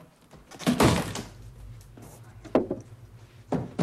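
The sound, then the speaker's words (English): A wooden 2x4 board is pulled off a wall, starting with a heavy scraping thunk of wood. Two shorter knocks follow at spaced intervals over a low steady hum. “He reveals a piece of 2x4 covering a small area of the wall. He pulls it off.”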